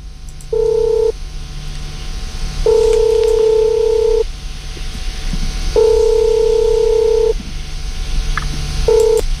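Telephone line tones as a radio host calls a listener: long, steady beeps repeating in a regular on-off pattern, four tones with the last cut short, over a low hum.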